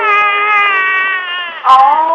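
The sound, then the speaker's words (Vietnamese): A baby cries in a long, sustained, tonal wail that dips slightly, breaks off briefly, then returns louder and higher. “Ôi nín đi con, nín đi con, ôi nín đi con, à nín đi con ơi.”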